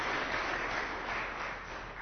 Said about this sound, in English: I didn't do it for that, but I mean, if you're gonna applaud, applaud. Because God's Word is great.